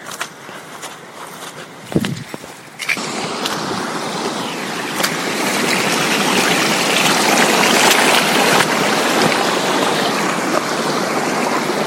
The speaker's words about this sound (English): It's been raining for the last wee while here, so the path is kind of like a burn.